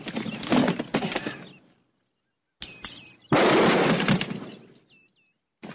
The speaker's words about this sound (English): I'm just going to blast this lock off.